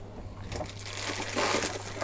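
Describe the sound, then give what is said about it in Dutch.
Crinkling of a snack bag being grabbed and handled, a steady dry rustle of crackling plastic that swells into a louder burst partway through, over a low constant hum and with no talking. “Ik pak nog een zakje.”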